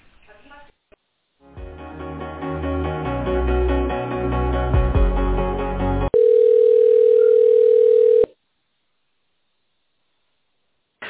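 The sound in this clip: Telephone line sounds while a call to a medical centre is transferred: a stretch of tinny, narrow-band hold music, then a loud, steady single-pitched tone for about two seconds, followed by silence.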